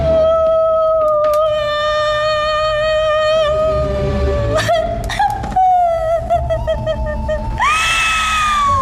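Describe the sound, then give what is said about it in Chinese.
A woman wails and cries loudly as she laments her husband, a long, sustained, high keening cry broken by sobbing catches that rises into a sharper wail near the end. “哭天喊地的成何体统”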